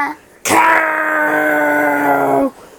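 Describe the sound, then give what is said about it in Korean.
A single long, loud howl from a parent dinosaur in a children's audio story, sustained for about two seconds with a rich, steady tone before it cuts off abruptly. “울부짖는 법도 가르쳤습니다.”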